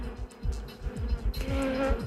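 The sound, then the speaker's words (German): A wasp buzzes inside a studio, a faint, wavering insect drone that comes and goes in low pulses for about two seconds, with no talking. “We have a wasp actually in the studio here.”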